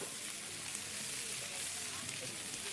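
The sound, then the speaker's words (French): Onions sizzle in olive oil in a frying pan, making a faint, dense hiss with fine crackling. The sound stays even and unbroken throughout. “Quand ça cuit, ça fait pshh, pshh, pshh. Eh ben oui, parce que tu as mis de l'huile d'olive dans la poêle, et tu rajoutes les oignons, ça fait pshh.”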